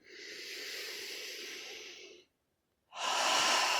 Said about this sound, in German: Noch einmal einatmen und ausatmen.